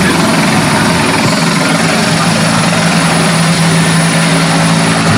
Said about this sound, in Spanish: es que están pasando, ¿no?, varios medios aéreos y por eso la comunicación a veces se ve entorpecida.